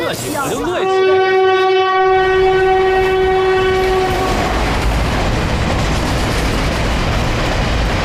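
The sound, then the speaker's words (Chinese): A slow stopping passenger train sounds one long, steady horn blast lasting several seconds, then its heavy rolling rumble and rattling wheels carry on alone. “我跟你说过不要坐这趟火车，你非要坐，你说说，这趟火车慢车”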